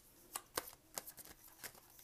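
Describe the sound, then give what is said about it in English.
A deck of Morgan Greer Tarot cards is shuffled, with chunks of cards flying out. Faint, crisp riffling clicks and flutters come in a quick, irregular run. “Big chunks of cards flying out. I only need like one or two more here. Crazy cards. I'm using the Morgan Greer Tarot today.”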